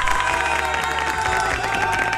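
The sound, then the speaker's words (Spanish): Enthusiastic applause from a crowd, a steady wash of many hands clapping mixed with some cheering, holding at an even level for a couple of seconds. “Aplauso para usted, definitivamente.”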